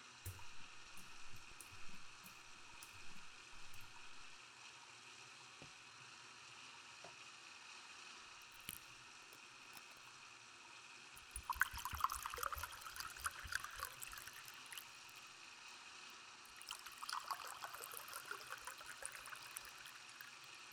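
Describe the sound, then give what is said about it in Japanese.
Hot water running into a filling bathtub, a quiet, steady trickle and gurgle broken by a few louder bursts of splashing. “あと少しでお湯たまりそうだから、その前に準備しちゃおっか。”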